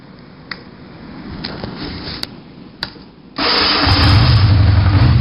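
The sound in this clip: An engine starts: a few sharp clicks over a quiet hiss, then it catches and runs with a loud, steady drone to the end.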